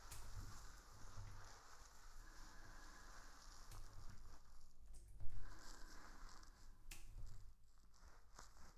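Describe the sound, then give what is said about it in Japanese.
Hair is shampooed while the scalp is massaged and sebum is washed away. The soft, wet scrubbing and rubbing is faint and continuous, with a few sharper crackles and one louder burst near the middle. “頭皮を揉みほぐしながら皮脂を洗い流していきます。”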